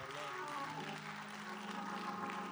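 Applause welcomes an evangelist to the stage at a church service, a dense, steady wash of clapping that holds at an even level from start to finish.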